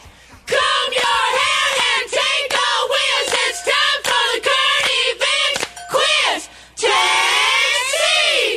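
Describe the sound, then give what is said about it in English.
A pep squad cheers with loud, high shouted yells in a rapid run of many short bursts, ending on a longer sustained cheer. “And now our pep squad.”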